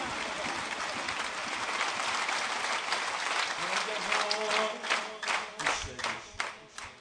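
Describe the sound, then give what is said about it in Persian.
An audience claps at a religious Eid al-Ghadir celebration. A dense wash of applause gives way to distinct, rhythmic claps in the second half, with a voice over it. “قشنگ دست قدیر، جشن کف زدن و شادی کردن و اشک ریختن به محبت اهل بیت.”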